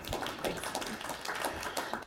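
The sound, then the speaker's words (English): A round of applause during a church service, heard as fairly faint, scattered claps from a small group, tapping unevenly throughout. “Round of applause for Karen, please.”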